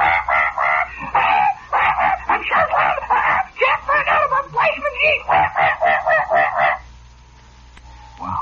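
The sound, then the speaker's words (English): A voice imitates a talking parrot, letting out a rapid run of squawky, honking syllables for several seconds before falling silent. “And in the back, you see this parrot, see? And the parrot is talking to himself,”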